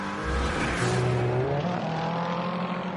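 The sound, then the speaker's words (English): BMW and Corvette race cars on a racing circuit, a loud, steady engine roar with a layered harmonic whine that shifts slightly in pitch as the cars drive on. “BMW on Corvette action. Again, a moment or two ago, the far side of the racing circuit.”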